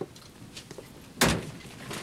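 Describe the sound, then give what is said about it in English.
Bolt cutters snapping a locker lock: one sharp, bright crack stands out after faint handling noises and is followed by a brief trailing rattle. “An officer snaps the lock with some bolt cutters.”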